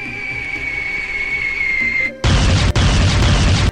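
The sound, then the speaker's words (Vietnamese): Fireworks burst far off as an audiobook sound effect: a steady high whistle lasts about two seconds, then a loud, dense crackling blast follows, with a brief break in the middle. “Sau đó là bập bập mấy tiếng, ánh sáng huy hoàng rực rỡ tỏa ra. Chẳng lẽ là pháo bông sao?”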